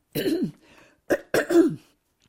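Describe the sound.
Throat clearing by a speaker: a few rough, throaty rasps separated by short pauses. The first is longer, and the last two come close together.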